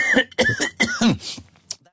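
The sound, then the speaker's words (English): A person coughing: a few harsh, voiced coughs mixed with throat clearing in quick succession, ending with a fainter final burst. “I'm going to cough again.”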